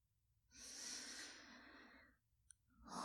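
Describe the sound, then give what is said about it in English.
A slow, deep breath drawn in, a steady airy rush lasting nearly two seconds, followed after a short pause by a small click and the start of another breath. “Just relax and breathe slowly. Take a nice deep breath in.”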